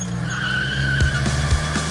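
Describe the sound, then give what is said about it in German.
Tires screech as cars race off around the block, a steady high squeal held over a low engine rumble, with a few brief bumps in the noise. “Los, wir fahren um die Wette. Na los, einmal um den Block.”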